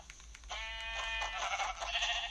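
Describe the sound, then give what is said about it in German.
A sheep bleating in a video game: a faint, drawn-out, wavering cry with a nasal, buzzy tone that holds for about two seconds. “Und das letzte Schaf, das wir brauchen.”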